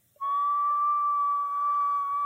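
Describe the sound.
A person imitates the tea-kettle-like whistle of an older, hyperactive Brittany Spaniel hunting dog: one loud, steady high tone held for about two seconds, alone.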